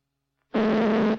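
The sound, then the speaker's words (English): A loud, buzzy synthetic tone made by large hand-drawn marks on an optical film soundtrack. It starts suddenly after a brief silence, holds steady and harsh for under a second, then cuts off. “Larger marks, a louder sound.”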